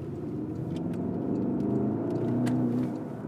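An electric car with heavy batteries accelerates: a continuous low whirring hum with a faint tonal whine over road rumble, building slightly and holding steady, with no voices.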